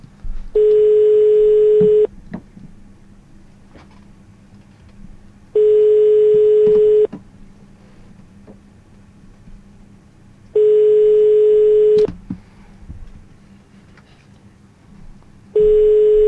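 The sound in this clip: Ringback tone of an outgoing telephone call that goes unanswered: steady beeps about a second and a half long repeat every five seconds, four in all with the last cut short, over faint background noise.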